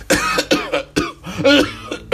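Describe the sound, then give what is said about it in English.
A man coughing violently: a rapid series of harsh, rasping coughs in uneven bursts with short gasping gaps between them, loud and alone. “he started to cough violently yet again”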